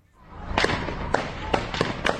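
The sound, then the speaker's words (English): Gunfire in the Palestinian village of Al-Mughayir in the West Bank: several sharp, abrupt cracks spaced irregularly over a steady rumbling background. “Gunfire in the Palestinian village of Al-Mughayir in the Israeli-occupied West Bank.”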